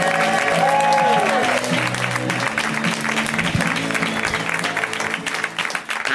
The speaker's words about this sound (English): So get it started right now. That's right. Put those hands together.